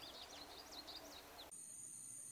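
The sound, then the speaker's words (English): Birdsong from a sound-library ambience recording: a stream of quick, high chirps and twittering over a soft bed of ambient hiss. It cuts off abruptly partway through, leaving a faint, steady high tone. “just show you some of the ambiences that I've found in this library. So we've got a bunch of beautiful birds,”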